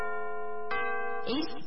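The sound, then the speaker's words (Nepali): A radio station's time-signal chime marking 6 a.m.: a sustained, ringing electronic tone, joined by a few further struck chime notes that layer over it and ring on, fairly quiet and with no talk. “साहिलो समय सूचक अहिले बिहानको 6 बज्यो।”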